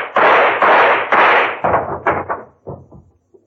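A gun fired repeatedly until empty, a rapid series of loud bangs. The first few are long and heavy, and the later ones grow shorter and fainter toward the end.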